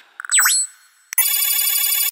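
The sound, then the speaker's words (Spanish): An electronic telephone ring announces an incoming call: a short synthetic swooping chirp, a brief silence, then a bright, steady, buzzing trill held for about a second. “Llamada entrante.”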